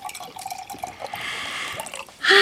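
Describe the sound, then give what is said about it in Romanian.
Hot tea poured into cups: scattered drips and light splashes give way to a steady trickle of liquid, ending in a louder burst of pouring. “Așa, să vă torn ceaiul. Ai grijă că-i fierbinte, ai grijă.”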